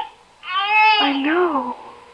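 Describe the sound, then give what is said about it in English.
A baby cries in a hand-carved crib: one loud, wavering cry with a bending pitch that lasts just over a second, rising out of near silence and then fading away. “tell me you hear what I hear. A baby crying right here in this crib.”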